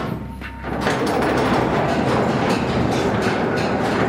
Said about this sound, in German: Das ist die alte Grubenbahn, eine alte Lok mit einigen Waggons hinten dran.